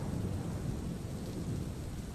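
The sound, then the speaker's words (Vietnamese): Thunder and a heavy downpour of rain make a dense, steady roar with a deep rumble underneath, loud and unbroken throughout, with no voices. “Liền sau đó là tiếng sấm rền trời và một cơn mưa ầm ầm như trút nước đã đổ xuống.”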